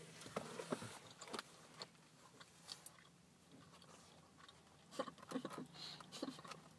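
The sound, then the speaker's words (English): Quiet chewing and biting into a bagel: soft, crunchy bites and moist mouth sounds at irregular intervals, close and faint, with no talking. “Let me just finish eating my bagel. This is some ASMR.”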